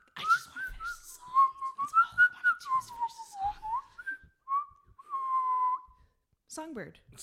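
A person whistles to imitate a songbird, a parakeet, during a drinking game: a run of short, wavering, chirpy notes, then longer held tones near the same pitch, fairly clear with little else around them.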